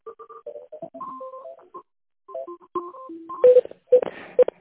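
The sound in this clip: Telephone keypad tones while a call is being transferred: a quick run of many short, clipped beeps at shifting pitches, growing louder and harsher toward the end.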